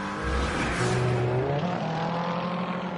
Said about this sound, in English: it is two of the red cars that are battling together for the lead of the race.